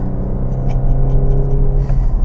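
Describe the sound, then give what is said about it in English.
The engine of a Porsche 911 drones loudly and steadily as the throttle is floored in fourth gear at 68 miles an hour on a wet road. No voices are heard over it. “It's almost as good as getting in a 911. Woo! And tromping the throttle. 68 miles an hour in fourth gear.”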